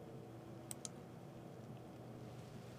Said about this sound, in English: And I'm going to click Grant Access.